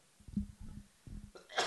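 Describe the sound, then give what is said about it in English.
A person choking and coughing on something caught in the throat makes a few short, strained, throaty bursts, then a harsher, breathy cough at the end, all fairly quiet. “Oh, I'll let you choke for a second.”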